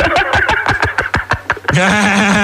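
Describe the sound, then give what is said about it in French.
Formula 1 racing car engine on a circuit: many quick, downward-sweeping engine whines in rapid succession, then a sustained, steadier engine drone. “il y en a un qui est sur un circuit de Formule 1”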